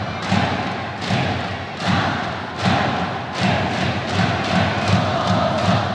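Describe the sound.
A stadium crowd of North Korean fans in Japan chants and cheers in rhythm, a dense roar of voices punctuated by loud thudding beats that recur roughly every second throughout.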